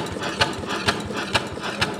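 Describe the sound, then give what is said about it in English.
Steam-powered machine with metal gears and pistons pumping, driven by a steam-powered wheel, gives a steady mechanical chugging hum with four sharp, evenly spaced beats. “and above that, a couple metal gears and pistons pump furiously.”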